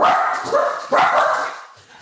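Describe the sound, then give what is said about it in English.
Two cavoodle dogs bark loudly in a few overlapping bursts, their bright, insistent yaps rising sharply twice before the noise fades toward the end. “I'm so sorry. I knew that would happen. I have two cavoodles that think they are guard dogs.”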